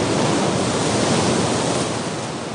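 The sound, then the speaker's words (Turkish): Waves wash onto a deserted beach by day, a steady, even rush of surf noise with no distinct breaks or other sounds. “Gündüz vakti ıssız bir sahil.”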